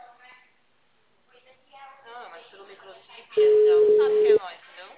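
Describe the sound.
A phone call ringing out before reaching voicemail, heard as one loud, steady, mid-pitched ringback tone lasting about a second. Thin, phone-quality talking plays before it and continues underneath.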